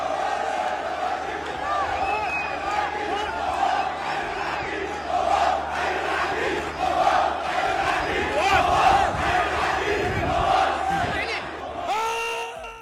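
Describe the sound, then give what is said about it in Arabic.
Al-Shorta football club supporters chant loudly in unison for a colonel, a dense roar of massed voices that holds strong and steady across the whole stretch, swelling slightly in the middle before easing near the end. “طبعا هذه الفرحة وهذه الهتافات التي استمعنا إليها تهتف للعقيد المواس”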